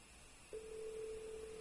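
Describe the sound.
A telephone ring tone heard while a call is placed: after a short hush, a single steady, faint, low-pitched tone holds for about a second and ends in a small click.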